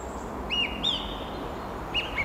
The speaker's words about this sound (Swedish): En taltrast, uppfordrande, ivrig.